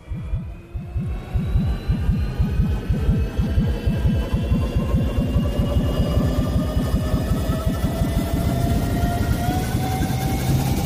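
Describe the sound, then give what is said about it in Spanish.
A throbbing time machine sound effect with loud, low pulsing beats that quicken steadily and keep going without a break. Thin, whining tones glide upward above the pulses. “vamos a montarnos en la máquina del tiempo.”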